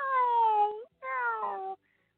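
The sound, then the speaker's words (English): A person imitates a cat's meow with two drawn-out, tonal, cat-like calls separated by a short gap, the first sliding slightly downward in pitch, both fairly faint and clean. “So I'm doing my meow call.”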